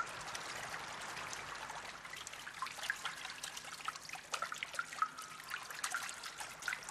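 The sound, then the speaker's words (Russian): Rain falls onto a water surface with a dense, steady patter of countless small drops and splashes. The crackling texture stays even and moderately loud throughout, with no voices. “Дождь начинает ослабевать.”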